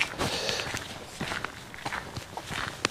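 Footsteps sound as a hiker walks back along a trail beside a moor. Many irregular, crunchy steps come at a walking pace, with some louder than others, and no talk.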